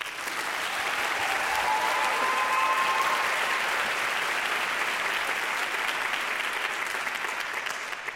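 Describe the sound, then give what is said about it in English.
Audience applause welcoming a young music trio of violin, cello and piano: dense, sustained clapping from a crowd, steady and even throughout, with no break. “Please welcome them.”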